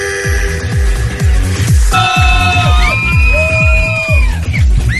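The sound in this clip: An audience of girls cheering and screaming with high, sustained shrieks over a pounding, regular dance-music beat. The sound stays loud and dense throughout.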